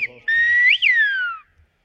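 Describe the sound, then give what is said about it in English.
A single whistled phrase in the Canary Islands whistled language: one sustained high, clear note that briefly swoops up, then glides steadily downward and fades, with faint low sounds just before it. “The Canary Islands have a song of their own, in a whistle carried on the wind.”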